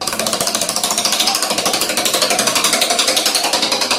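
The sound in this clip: A prize wheel being spun on a show gives off rapid, evenly spaced clicking, a loud and steady rattle that holds its fast pace from start to finish.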